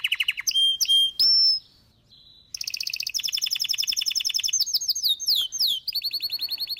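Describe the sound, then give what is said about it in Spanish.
A wild canary sings outdoors in the countryside of the Canary Islands, pouring out bright, high-pitched trills and rapid chirping phrases. A brief lull comes early, then the song resumes as a dense, continuous run of clear notes. “Así suena el susodicho canario en el campo, en el monte, en los parques y montes y montañas de Canarias.”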